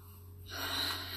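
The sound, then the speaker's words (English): A deep inhale during a stress-relief tapping exercise: a single soft, airy rush of breath swells up after a moment of near quiet and holds steady, faint overall, with no talk. “And then just take a deep breath.”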